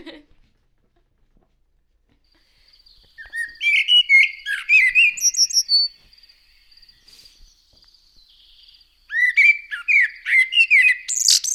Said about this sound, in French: On peut écouter le merle